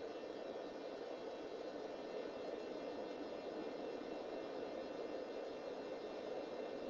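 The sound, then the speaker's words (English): Car interior noise while driving: a steady, even rumble and hiss with no distinct events. It holds at a low, constant level throughout. “Just driving back from Regina.”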